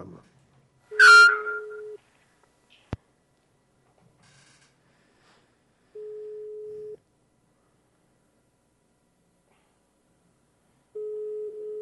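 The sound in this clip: A phone line gives a ringback tone on a call that goes unanswered: three steady, mid-pitched tones, each about a second long, spaced by roughly five seconds of silence. A brief burst of noise and a sharp click come early on.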